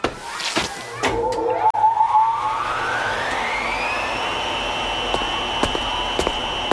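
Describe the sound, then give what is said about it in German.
A household spin dryer used to knead yeast dough whirs up, its motor whine climbing steadily in pitch and then holding a loud, even tone, with a few faint clicks over the top. “Was ist denn das für Lärm? Wilma knetet den Hefeteig. Conny hat recht, sie kann das viel besser. Sie hat doch eine Schleuder.”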